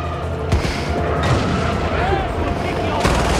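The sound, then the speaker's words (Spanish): Booming blasts from a video game in which a car explodes in an elephant's face. A few sharp bursts punctuate a dense, rumbling background, with voices talking over it. “le estalla un puto coche en la cara al elefante y te lo ves tan normal”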